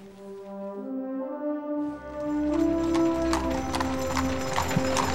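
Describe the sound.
Hooves of a horse pulling a carriage clip-clop steadily, with a soft neigh among them and sustained tonal sounds running underneath.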